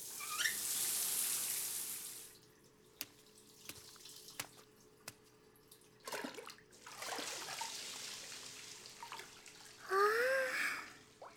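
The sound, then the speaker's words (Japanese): Bath water sloshing as someone climbs into the tub: soft splashing surges and swirls at a low level, with a few light drips and small splashes between them and a brief final slosh. “お風呂入っちゃいましょう。”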